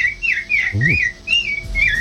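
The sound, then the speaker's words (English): A person whistles an imitation of an American robin's song. Several short, bright, warbling phrases rise and fall in pitch, separated by brief gaps, with a low voiced sound briefly underneath. “American robin.”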